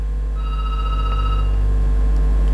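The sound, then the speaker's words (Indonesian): A phone rings with an incoming WhatsApp call. A bright, steady electronic ringtone with layered tones lasts about a second over a constant low hum, with no voices. “Kenapa ini telepon WA-nya? Saya ke penelpon lagi, telepon biasa kalau begitu.”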